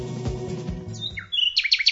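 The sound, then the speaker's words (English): A nightingale sings in quick, high whistled chirps and trills, repeated in a rapid series that starts as music fades out. “The nightingale produces more notes than any other songbird.”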